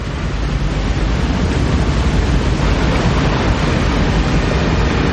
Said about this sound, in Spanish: Reman con fuerza. se acercan a otro salto de agua.